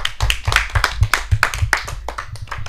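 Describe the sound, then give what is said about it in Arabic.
Audience applause bursts out as a loud, steady run of rapid, rhythmic hand claps that continues without pause. “تصفيقة كبيرة عليها زيدة.”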